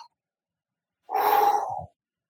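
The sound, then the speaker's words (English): A single deep breath taken before continuing: one long, airy whoosh of under a second, alone in an otherwise quiet clip. “I just want to take a deep breath before this one. Okay. I'm just going to.”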